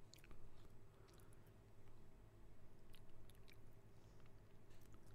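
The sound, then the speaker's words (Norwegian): Chewing as someone eats a spoonful of dry tomato soup powder without bread: soft, continuous wet mouth and crunching noises, faint and steady, with no talk. “Jeg må smake på det uten brød.”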